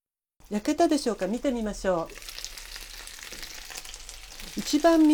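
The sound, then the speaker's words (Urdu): Chicken pieces frying in a covered frying pan over low heat give a steady, even sizzling hiss. A person talks before the frying and again as it ends. “Fry pan کو کسی ڈھکن سے ڈھانپ دیجیے تاکہ گوشت اچھی طرح سے گل جائے۔ دھیمی آنچ پر مزید 4 منٹ پکائیے۔”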